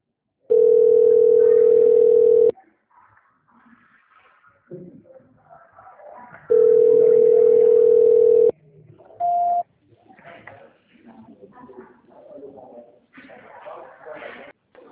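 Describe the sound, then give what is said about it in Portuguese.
A telephone ringback tone sounds while the caller waits for an answer: two long, steady, mid-pitched tones, each about two seconds, separated by a pause. People talk in the gaps and after the tones. “Tá tocando lá, eles já vão atender.”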